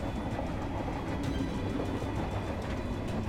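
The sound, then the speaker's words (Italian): A train runs into the station at San Giovanni in Persiceto with a continuous low, dense rumble and faint rail clatter. The sound is fairly quiet and even, with no voices. “Il treno entra in stazione di San Giovanni in Persiceto e si ferma.”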